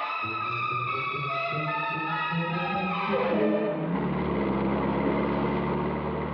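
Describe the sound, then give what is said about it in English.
A car drives off: a steady, tonal engine hum for a few seconds, then a broader, rougher rumble as it pulls away, with no one speaking. “I'll drive down this road, Mrs. Collins, and we'll turn left and hit the highway.”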